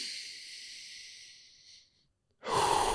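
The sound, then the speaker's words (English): A deep, full breath drawn down into the lower stomach: a long, soft, hissing inhale fades into a moment of silence, then a sudden, stronger rush of breath at the end. “Take one full breath all the way down to your lower stomach.”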